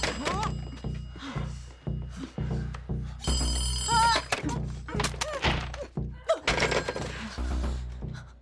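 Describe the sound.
A telephone rings in one short, bright burst amid many heavy, irregular thumps.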